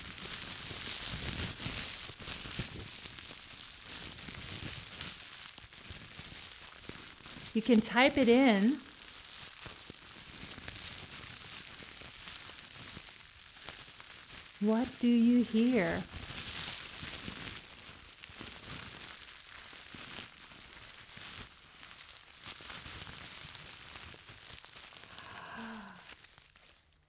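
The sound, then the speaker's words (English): A fire sound effect made with cling wrap and a crumpled bag gives a continuous dense crackle and hiss, with a voice speaking briefly over it a few times. “Fire. What you are hearing was actually created by me. It's not actual fire. It's a sound effect created with cling wrap and a crumbled bag.”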